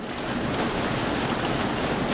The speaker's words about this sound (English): It's gushing through a giant faucet under a grate in the floor.